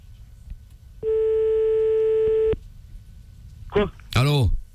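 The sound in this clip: A telephone line tone while calling back: a single steady, sustained beep of about a second and a half, followed by a brief voice.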